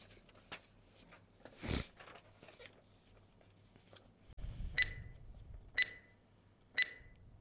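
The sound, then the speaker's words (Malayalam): Countdown timer beeps during a quiz game: three short, bright electronic beeps spaced about a second apart near the end, all quiet, over a low hum and a few faint rustles. “നമുക്ക് timer കൊടുക്കാം. കൊടുക്കാം.”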